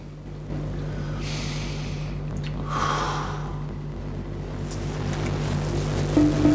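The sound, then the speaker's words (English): Deep breaths taken by a man in a bathroom in front of a mirror: a couple of long, airy, hissing breaths, followed by fainter breathing, over a steady low hum. “He stares at himself in the mirror as he takes some deep breaths.”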